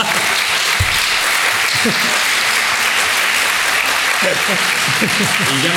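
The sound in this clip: Audience applause at a book presentation: loud, continuous clapping from many hands, even and unbroken for about six seconds, with a few voices calling out beneath it.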